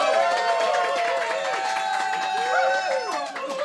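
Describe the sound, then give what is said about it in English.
A crowd at Carlino's in Ardmore gives a loud cheer, with many overlapping voices shouting and calling out together in a sustained, dense roar. “We want a big, loud cheer.”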